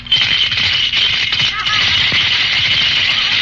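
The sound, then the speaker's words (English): Coins rattle inside a hand grenade piggy bank as it is shaken, a dense, continuous metallic clatter of many quick clicks that lasts a few seconds. “You got money in there. Uh-huh. Gosh, and I was afraid to touch it. I know. It's the safest little piggy bank in the world.”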